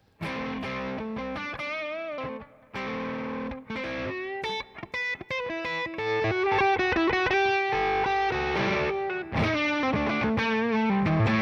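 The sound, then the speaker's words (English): A distorted electric guitar plays through a Hi Power amp into speaker simulation alone, with no power amp emulation. Choppy chords and short riffs with gaps give way to sustained, ringing chords, loud and unaccompanied. “Now I'm going to turn the power amp on the two notes off. Sure. So this is just now speaker simulation. High power going into speaker simulation.”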